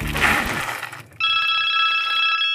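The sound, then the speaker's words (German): Phone notification chime for an incoming message during a rest stop on a cycling trip in Hohenau an der March: a bright, steady electronic tone that sounds abruptly after a noisy start and holds to the end. “da kommt ja eine Nachricht von Robert.”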